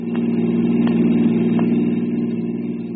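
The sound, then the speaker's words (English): Steady car engine drone while driving, a low even hum that holds at a constant level for the whole stretch with no talk over it. “I was driving down the West Plains on a strictly non-business errand”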